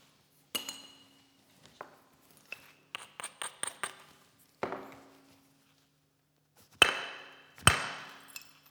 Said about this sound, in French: Donc ça, c'est du travail de préparation, je vous l'ai dit, pour que le bord sur lequel je vais frapper résiste à l'impact qui est assez violent.